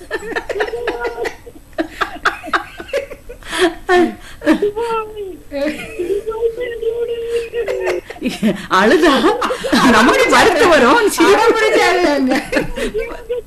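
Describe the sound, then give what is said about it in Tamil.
Mimicry of a newborn baby crying: a voice makes wavering whimpers and broken cries that grow louder and denser over the final few seconds. “இது mimicry பண்ண மாதிரி இருக்கு, பச்சை குழந்தை அழுதது மாதிரி இருக்கு.”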